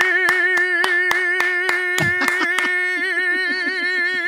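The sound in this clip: Rhythmic applause for a newly engaged couple: many sharp, evenly spaced claps over a sustained musical tone, the claps growing softer toward the end.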